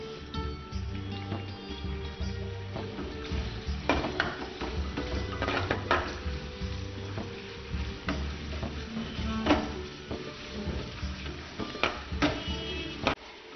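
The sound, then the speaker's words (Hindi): Onions sizzle and brown in a pan, a steady crackling hiss broken by frequent clicks and scrapes of stirring, with no one talking. “ये हमने प्याज डाल दी, इस तरीके से brown हो रही है”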